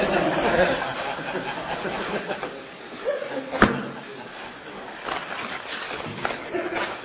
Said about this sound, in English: The opening packs of Rebbe cards, that's what it is.